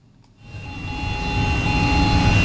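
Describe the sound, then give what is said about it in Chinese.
High-horsepower tractors pulling electronic precision seeders during spring sowing on a farm field. A loud, steady engine drone starts after a brief quiet moment and swells slightly as it continues. “在北大荒集团鹤山农场第7管理区，两台大马力机车牵引着电控精量播种机抢抓农时，加紧进行播种作业。”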